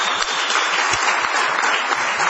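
An audience applauds with a dense, continuous clatter of many hands. The clapping is loud and even from start to finish, with no cheering standing out.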